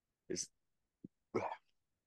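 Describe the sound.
Short, gassy burps from a person, two brief throaty bursts with a tiny click between them, faint and alone.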